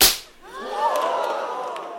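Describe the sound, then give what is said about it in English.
A slap sound effect gives one sharp crack at the start, followed by a whistling, ringing tail that lingers and slowly fades. “Big Willie. Slap, slap.”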